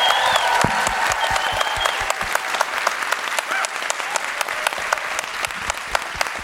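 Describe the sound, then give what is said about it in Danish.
An audience applauds to welcome a guest onto a show, with many sharp, overlapping hand claps forming a steady, lively burst of clapping. “så synes jeg, I skal give en kæmpe stor hånd til vores gæst, Natasha Brock”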